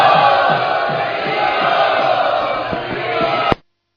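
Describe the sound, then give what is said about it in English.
A crowd at the Sri Sri Radha Gopinath Temple loudly chants "Hari Bol" in welcome. The massed voices form a dense, sustained roar for about three and a half seconds before cutting off abruptly. “Let us take this opportunity to welcome His Holiness Prabhavishnu Swami Maharaj to Sri Sri Radha Gopinath Temple in our traditional style by loudly chanting Hari Bol.”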